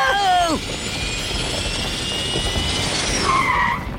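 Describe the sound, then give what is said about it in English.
Cartoon turbo thrusters fire up with a loud, sustained jet-like roar and hiss, a steady rushing whoosh that holds through the whole clip. “Turbo thrusters, activate!”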